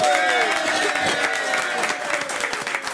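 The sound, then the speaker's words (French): Applause from a studio audience greeting a guest, dense steady clapping that fills the whole stretch and tapers slightly toward the end, with a voice speaking briefly over it. “Applaudissements pour Laetitia Colombani.”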